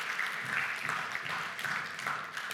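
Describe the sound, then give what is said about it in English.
Faint applause from an audience in a room during a spoken address: a soft, even patter of many hands, continuous and unbroken throughout. “Like, yeah, you can clap for it. That's awesome.”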